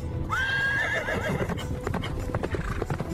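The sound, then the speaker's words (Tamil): A horse whinnies with a high, wavering call, then its hooves clip-clop in a steady series of sharp knocks, fairly loud and with no voices over them. “குதிரையின் குளம்பொலி கேட்கிறதே.”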